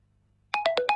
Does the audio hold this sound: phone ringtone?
yes